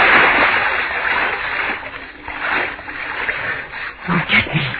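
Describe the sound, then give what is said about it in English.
Splashing of someone swimming through a dark river at the end of a tunnel, a steady churning wash of water with a few stronger surges and a heavier burst of strokes near the end. “Swim. I can swim. Swim in the dark. Away from... What am I swimming in?”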